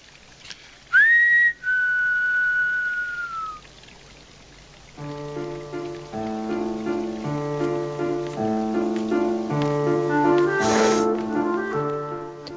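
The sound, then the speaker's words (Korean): Someone whistles a single clear, high note that lifts at the start and then holds steady for a few seconds. After a pause, melodic music with repeated tonal notes follows, with no talk. “휘파람도 불어봅니다.”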